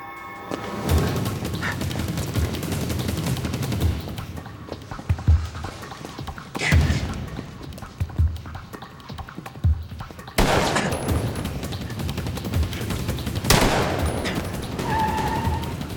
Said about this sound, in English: reporting shots fired at 18166 San Fernando Road. Request backup.